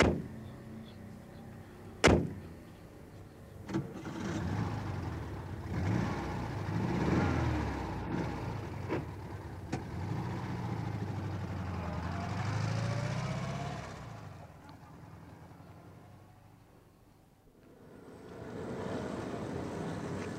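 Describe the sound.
A car driving off: a sharp thud near the start, then a low, steady engine rumble that dips and swells over about twenty seconds, with no talk.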